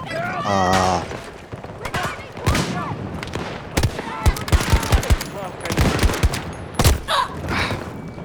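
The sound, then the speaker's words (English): Gunfire in a video game battle: rapid bursts and single cracking shots in irregular clusters, with people talking over the action. “God damn it, I missed that guy. Oh, why did you shoot that? You jackass. He shot the fucking barrel.”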